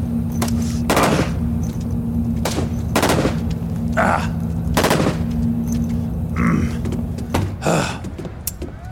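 Gunfire crackles in many sharp, irregular shots and short bursts over a steady low hum, loud and continuous across the whole stretch.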